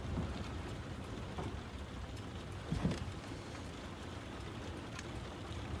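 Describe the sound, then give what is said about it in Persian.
Rain falls on a night at 10 o'clock as a soft, steady, faint hiss that carries on evenly throughout. “هوا هم که بارونیه.”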